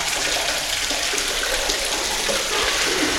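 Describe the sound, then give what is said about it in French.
Hot water running from a tap to fill basins for washing: a steady, loud, hissing rush of flowing water that stays even throughout. “on remplit les vases, on remplit une, là, il y a l'eau chaude. Bon, elle va mettre du temps un petit peu à arriver”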